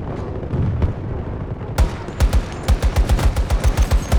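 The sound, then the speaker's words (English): Loud video game gunfire follows a rumbling stretch. One sharp shot is followed by a fast, even run of many rapid automatic rounds. “Ugh, these guns are so bad.”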